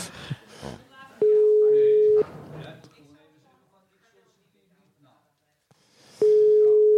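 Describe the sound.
A telephone ringback tone sounds while a call is being placed. Two long, steady, mid-pitched beeps are separated by several seconds of near silence, and people talk before the first beep.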